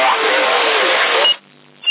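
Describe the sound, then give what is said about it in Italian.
CB radio transmission on channel 45 with an echo effect, a narrow, crackly band-limited signal that cuts off abruptly after about a second, followed by quiet hiss and a short squelch burst. “Lascialo così l'eco, va bene.”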